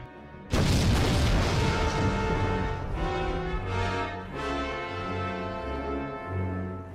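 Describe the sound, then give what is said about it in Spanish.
A massive explosion as a laser ray destroys a planet in a science-fiction scene: one sudden, loud booming blast with a long rumbling decay, then low sustained tones that swell and fade beneath it. “¡Disparen el rayo!”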